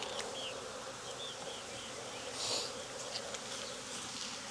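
Honeybees buzz at a hive during beekeeping work with a beetle trap nearby, a dense, steady drone of many wings that swells briefly midway, with no talk over it.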